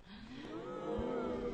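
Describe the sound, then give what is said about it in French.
Cattle low from a large herd in the Vercors: a long, sustained moo with a steady tone that grows slightly louder toward the end. “nous voici avec beaucoup de vaches.”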